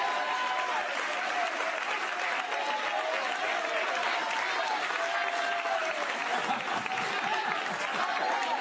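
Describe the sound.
Hands clapping in applause during a church sermon: a long, steady wash of dense clapping that stays at an even level from start to finish, with faint voices mixed in.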